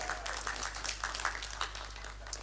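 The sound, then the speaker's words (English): A faint round of applause for a reader after a Bible story, a small group clapping in quick, uneven patters over a low steady hum. “a big round of applause to us.”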